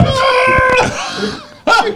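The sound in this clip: A voice imitates a quick scream from a dream with a drawn-out, wavering, cat-like high cry that fades away. A short, sharp second yelp follows near the end.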